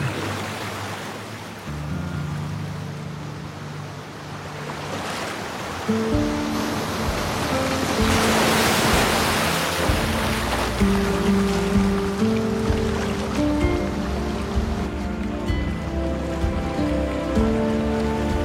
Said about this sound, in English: Now a large, majestic adult, White Fang sits attentively at the bow while Gray Beaver expertly paddles down a stretch of descending rapids.